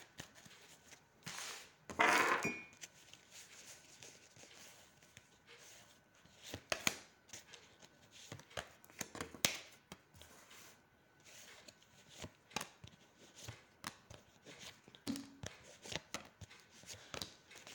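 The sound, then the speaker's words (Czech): Tarot cards being turned over during a reading: a loud papery rustle early on, then many light taps and flicks of cards scattered through a long, quiet stretch. “Tarot potvrzuje. Ještě moment, ještě otáčím.”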